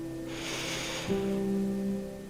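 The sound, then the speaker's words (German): A deep inhalation through the nose during a guided breathing meditation, heard as a soft, airy hiss lasting about two seconds over sustained, gentle tonal music. “Noch ein letztes Mal tief durch die Nase einatmen.”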